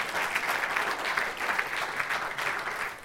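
Congregational applause at a church sermon, a dense, steady wash of many hands clapping that holds at an even level for about three seconds, with no voices standing out.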